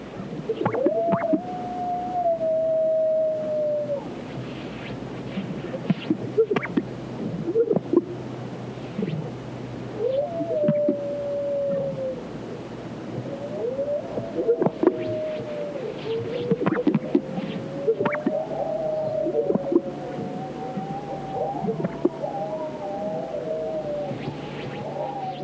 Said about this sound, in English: The eerie call of the greater sage grouse and the howls of a coyote echo across the arid sagebrush of California's Great Basin.